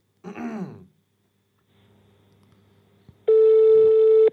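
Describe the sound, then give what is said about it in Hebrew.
An outgoing telephone call ringing out: a brief breathy vocal sound, then a faint low hum, then a loud, steady electronic tone held for about a second before cutting off. “ניתן לו שיחה, אולי הוא יענה”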